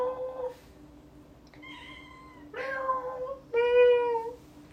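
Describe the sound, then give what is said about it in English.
A female cat meows several times in drawn-out, tonal calls that each differ in shape and pitch, the later two louder and clearer, with little else around them. “What a good meow. She makes different noises.”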